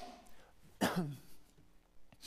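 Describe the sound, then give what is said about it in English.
A single short throat clearing, a rough, breathy burst that fades within a fraction of a second, faint against a quiet background, with no speech. “I gotta clear my throat a bit.”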